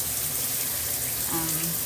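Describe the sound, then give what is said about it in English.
Cool tap water runs in a steady, even rush, holding one constant level from start to end with no break and no voices. “Off under some cool water, of course.”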